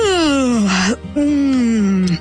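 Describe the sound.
A person yawns aloud in two drawn-out voiced moans, each sliding downward in pitch, the first ending with a brief upward catch before a short pause.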